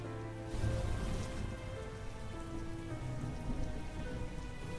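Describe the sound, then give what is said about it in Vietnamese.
Night rain in Saigon dripping from a roof: a dense, steady patter with no separate drops standing out, fairly quiet and even from start to finish. “Những hạt mưa đêm từ trên mái giọt xuống từng giọt, làm cho người ta đến xót ruột xót gan.”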